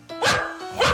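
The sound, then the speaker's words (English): A happy dog barks twice, two quick, fairly loud barks separated by a short pause. “That is the sound of one happy dog.”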